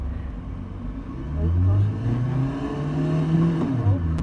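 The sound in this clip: A car accelerating hard toward 40 mph during a reaction-time driving test, its low engine drone rising in pitch, then climbing again after a brief dip.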